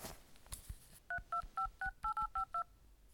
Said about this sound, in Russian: А, вампиру звонить надо срочно, точно.